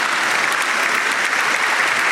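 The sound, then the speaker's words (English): Applause from an audience: dense, even clapping that holds a steady loudness for the whole stretch without a break. “Let me give you your applause”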